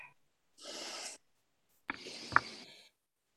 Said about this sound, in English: Would everybody take a deep breath?